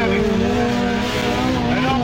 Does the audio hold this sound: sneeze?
no